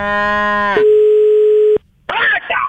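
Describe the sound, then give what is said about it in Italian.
A telephone tone sounds as a call is placed: a buzzy harmonic tone gives way to about a second of steady, even tone, then it cuts off. After a short silence, a voice answers. “visto che sei a Milano, lo chiamo adesso, lo chiamo e ci parli tu”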